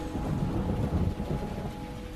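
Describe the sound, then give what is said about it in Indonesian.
Heavy rain falls in a dense, steady hiss over a deep, rolling rumble of thunder, loud and continuous throughout with no voices. “Ditambah lagi, hujan sangat deras kala itu, yang membuatku sulit untuk fokus menyelesaikan deadline.”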